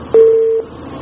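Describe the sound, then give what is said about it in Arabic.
A single steady telephone tone sounds loudly for about half a second and then stops, heard alone during a phone-in call. “أبو ياسر، يعني عاود اتصال مرة ثانية”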